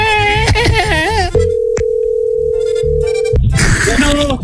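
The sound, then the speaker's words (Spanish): Telephone dial tone on a call being placed: a steady, loud, even-pitched tone holds for about two seconds with a brief beep inside it, framed by voice-like sounds before and after. “Pero vamos a marcar otra vez.”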